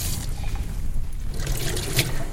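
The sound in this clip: Water rushes and trickles through pipes in a continuous, even flow of gurgling noise at moderate loudness, with no clear pauses.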